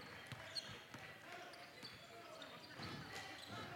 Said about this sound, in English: Still on that right wing with that dribble.